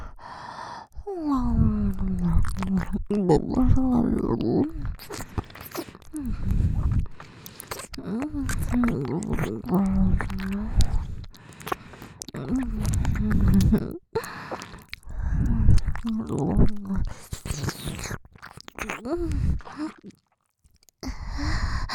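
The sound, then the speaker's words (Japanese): Wet ear-licking sounds in an ASMR roleplay: soft smacking clicks and squishes come in uneven clusters between breathy sighs, gasps and low voiced murmurs. “ご褒美ミミナメしてあげろ。”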